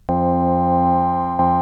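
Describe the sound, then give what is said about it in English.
A single sustained note from the trigger button of a cheap Casio electronic keyboard, a steady, reedy electronic tone that starts abruptly and is struck again just before the end, with no talk. “when I'm just playing with Florian, I just have a trigger button that sounds like this.”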